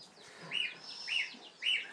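Bantam chicks chirping: three clear, high, arched peeps evenly spaced about half a second apart, each rising then falling in pitch, over a faint hiss with no voices.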